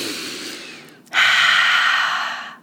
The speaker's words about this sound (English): Take a nice deep breath with me.